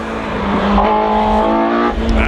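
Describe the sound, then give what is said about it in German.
A DeLorean car accelerates hard, its engine a loud, steady droning roar with strong harmonic tones throughout. “weil mein DeLorean nach wie vor anspringt. Deswegen reisen wir nochmal ordentlich zurück und ich würde sagen, wir geben richtig Gas.”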